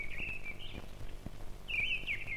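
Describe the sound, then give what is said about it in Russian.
A thrush sings its first, timid song of the season after returning from the south: two short, thin, high whistled phrases, faint above a steady low background noise. “Свою первую песню поет дрозд. Слышите? Пока еще очень робко.”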